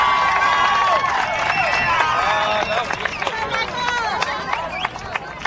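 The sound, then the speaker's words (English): Excited crowd cheering at a high school baseball game at Siegel High School, a dense, continuous roar of voices with whoops and whistles, easing slightly partway through. “I don't know if I've ever heard a crowd this excited. That's pretty electric right here at Siegel High School today.”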